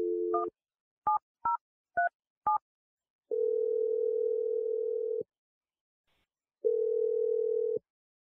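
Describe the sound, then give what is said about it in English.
Outgoing telephone call: five short keypad tones, then two long, steady ringback tones separated by a pause, with no voices. “We're going to give him a call and see if he even answers.”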